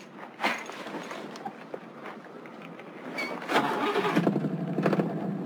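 A car engine starting: cranking noise that catches into a running rumble, which swells louder about halfway through and keeps going steadily.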